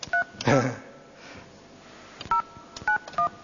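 Touch-tone keypad beeps as a telephone number is dialed: a few short, steady tones spaced apart, with a longer pause before the last quick run, plus soft clicks and handling noise between them.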